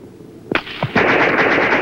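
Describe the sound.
A volley of rifle gunfire into snowy woods during a military skirmish: a few sharp separate cracks, then a loud sustained burst of rapid shots.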